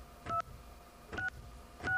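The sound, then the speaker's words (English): Touch-tone keypad dialing of a 1-800 number: three short, steady two-tone beeps, each followed by a brief pause, faint and alone, with no voices. “And just simply dial 1-800.”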